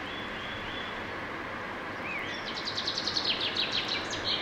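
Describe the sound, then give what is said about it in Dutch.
Chaffinch song, the first of the season at the end of winter: a quick run of high, bright notes that tumbles downward, entering partway through over a steady hiss of background noise. “Rob Buiter nam de eerste vinkenslag op. Het signaal dat deze vogels langzaam maar zeker weer bij stem komen.”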